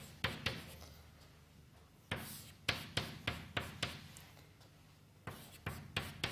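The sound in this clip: Someone writes out an equation in quick bursts of short, sharp scratching strokes with pauses between them. The strokes are fairly faint and no one speaks.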